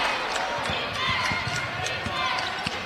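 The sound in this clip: A basketball is dribbled during a women's basketball game. The many quick, steady thumps come in an even rhythm under voices and crowd noise.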